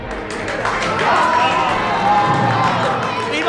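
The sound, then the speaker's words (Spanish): Townspeople and children run and cheer in the Calle de Correal at daybreak, a loud, steady crowd din of many excited voices shouting together, with scattered claps and quick taps of running feet throughout. “Todo el pueblo salió a la calle al rayar el día para ver las mulas cargadas de sacos. ¡Qué inmensa alegría! ¡Qué, qué frenesí! ¡Qué correr de la chiquillería por la calle de Correal!”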